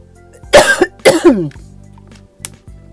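Two loud, harsh coughs in quick succession, each with a rough, throat-clearing edge, followed by near silence and one small click.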